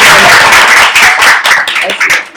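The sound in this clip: Audience applause at a talk: dense, steady clapping throughout, loud, with a voice audible over it.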